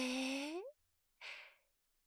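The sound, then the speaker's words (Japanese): A deep breath drawn in through the nose, a soft, breathy rush lasting about half a second. It follows a short voiced tone and is surrounded by near silence. “そのまま鼻で思い切り深呼吸。吸って”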